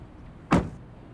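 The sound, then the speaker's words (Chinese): A car door being opened by hand: a single short, sharp thud that quickly fades into faint, quiet background. “于仲军的秘书小童拉开车门让她上了车，自己站在了车外”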